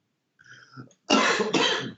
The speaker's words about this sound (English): that made me laugh and cough, man.